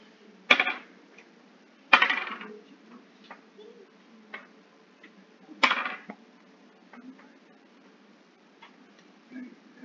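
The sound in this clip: Dice rolled by hand during a tabletop role-playing game, clattering in three sharp bursts with several fainter clicks and rattles scattered between them.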